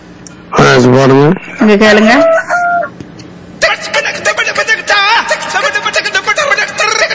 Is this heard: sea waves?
no